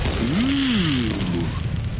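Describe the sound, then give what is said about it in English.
Pyrotechnic burst sound effect in a rock radio jingle: a loud, continuous rushing roar with whistling tones gliding up and down through it. “You know you're listening to Eddie Trunk Rocks when the pyro shoots from your smart speaker”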